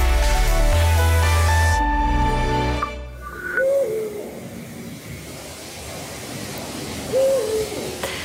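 Two short, wavering, hoot-like bird calls sound alone over faint hiss, spaced a few seconds apart, after a loud burst of music cuts off.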